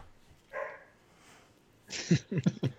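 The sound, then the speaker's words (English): Dog barking: a quick run of several sharp, loud barks packed together near the end, following a mostly quiet stretch with a brief softer yelp early on. “Sorry about my dog. I don't know what he's barking at.”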